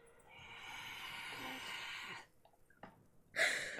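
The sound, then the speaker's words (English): Congested breathing through the nose from someone with a bad head cold: a long, faint, airy nasal inhale, a pause with small snuffles, then a sharper, louder sniff at the end. “What was that? It was me trying to breathe because I have a dirty cold.”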